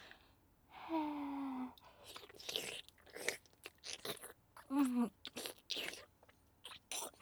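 Crunchy chewing and biting as someone tastes a rich food, a quiet run of short crisp bursts broken by a couple of brief voiced murmurs.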